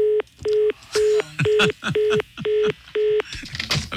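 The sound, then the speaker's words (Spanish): Telephone keypad dialing tones: seven short, evenly spaced electronic beeps in a steady rhythm, each a clear, bright tone, with a man's voice talking loosely over and between them. “Marcalo otra vez”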